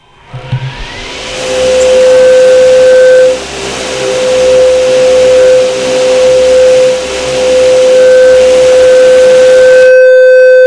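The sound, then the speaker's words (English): A large four-rotor machine spins up with a whirring drone: a tone rises over the first second, then settles into a loud, steady whine over a pulsing low hum. It dips slightly midway and cuts off sharply near the end. “So why don't you go ahead and crank up all four rotors for us here.”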